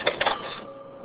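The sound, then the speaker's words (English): Bookstore cash register ringing up a sale: a few quick, rattling mechanical bursts in close succession, then a faint, steady hum as the clatter stops. No talking is heard. “The cash registers at the Hungry Mind bookstore in St. Paul are busy ringing up sales”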